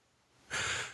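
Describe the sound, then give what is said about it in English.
A single deep breath: a quiet start, then a sudden, loud, airy rush that holds and fades slightly toward the end. “Come on. some deep breaths.”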